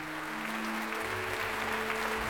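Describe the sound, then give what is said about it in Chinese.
Sustained applause from many hands clapping densely and evenly as a stage performance is welcomed. It holds at a constant loud level throughout, with a low steady hum beneath. “跟着主持人声音啪啪鼓掌”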